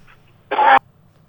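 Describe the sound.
A single short, rasping throat-clearing cough from someone with a dry throat, loud and abrupt against a faint low hum, with silence on either side.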